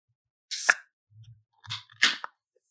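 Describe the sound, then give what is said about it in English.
A can of 7.9% ABV beer cracks open with a fairly weak pop and hiss, heard as a few short, quiet snaps and clicks with no talking. “Oh, another fairly weak crack of the can.”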